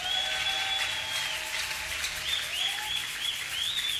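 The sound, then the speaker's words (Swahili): Faint applause from a church audience clapping for Jesus during a sermon: a soft, steady wash of clapping with a few high whistling tones above it. “Wale wanaamini inawezekana, walete makofi kwa Yesu.”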